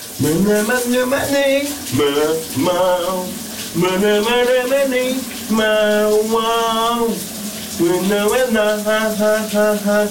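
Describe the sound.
A man sings in the shower while the water runs, a steady hiss of spray beneath loud, held melodic phrases with short breaks between them.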